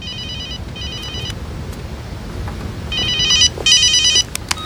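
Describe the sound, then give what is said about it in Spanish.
A telephone rings in a police department, four short electronic trilling bursts in two pairs, loud over a low, steady background rumble. “tiene una llamada. Dice que es urgente.”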